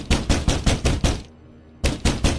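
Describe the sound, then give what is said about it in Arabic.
Heavy banging on a door in a horror story, a rapid series of loud, hard thuds that stops for about half a second, then resumes with a few more forceful blows. No voices. “فضلت ترزع على الباب”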